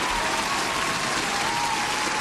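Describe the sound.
Audience applause, a dense and even wash of many hands clapping that holds a steady level throughout, with no single voice standing out.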